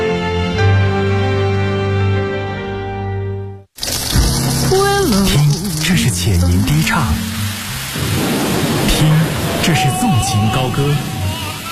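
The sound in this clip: Running water from a tap, a loud, steady rushing hiss that begins abruptly after a short musical passage, with a voice talking over it.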